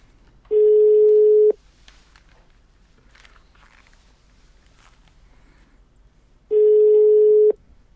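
Ringing tone of an outgoing telephone call waiting for an answer: two loud, steady mid-pitched rings, each about a second long and about six seconds apart, with faint small noises in the quiet gap.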